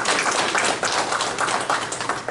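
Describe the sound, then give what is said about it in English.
A church audience applauds the helpers of a yard sale, a dense, even patter of many hands clapping at steady loudness throughout with no voices. “I think we should clap for all of you.”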